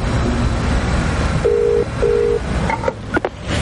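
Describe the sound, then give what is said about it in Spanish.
Telephone dialing tones from a car hands-free system: two steady electronic beeps of similar pitch, each under half a second, over a constant low rumble, followed by a few brief higher blips. “Busca el teléfono de Bethan en el manos libres y la llama.”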